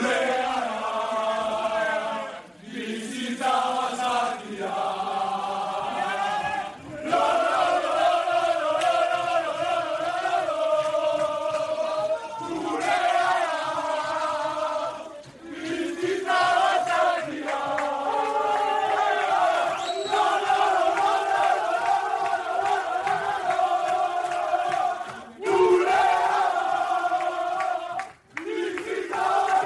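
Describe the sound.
A football team celebrates a 4-1 win over Valladolid in the dressing room, with many players loudly singing and chanting together in a continuous roar that dips only briefly between phrases.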